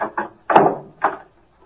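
A car trunk lid slamming shut and being locked, heard as four solid clunks: two short knocks, a heavier thud, then a final click-clunk, with silence after.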